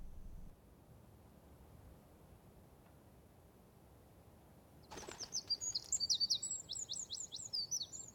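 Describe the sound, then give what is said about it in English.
Birds flying across the sky past trees, lampposts and buildings give a rapid run of high, thin chirps and tweets that begin midway, faint over a quiet background hiss. “Birds fly across blue skies, past trees, lampposts and buildings.”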